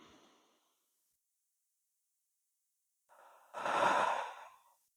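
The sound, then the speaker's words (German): Slow, deliberate breathing in and out during a guided meditation exercise: a soft breath fades out at the start, then silence, then a gentle inhale followed by a longer, louder exhale. There is no talking. “Und dann atme noch zweimal ganz bewusst ein und aus.”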